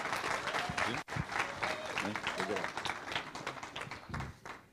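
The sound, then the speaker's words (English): Church audience applauding a speaker being welcomed to the pulpit, a dense, continuous patter of many hands clapping with a voice talking over it. “So come on, put your hands together and just welcome Barrett to the pulpit this morning.”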